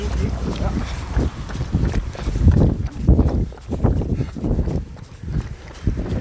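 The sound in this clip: A crowd of football fans walks toward a stadium: steady, dense shuffling footsteps run through a loud blur of voices talking throughout.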